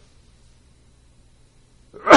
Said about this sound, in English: I'm going to sneeze, actually. Excuse me.